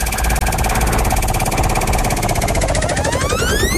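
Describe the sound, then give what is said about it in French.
A game show prize wheel spinning: a fast, even clatter of clicks continues throughout, joined by tones that climb in pitch toward the end. “On va lancer la roue qui déterminera l'épreuve que vous devez relever pour gagner.”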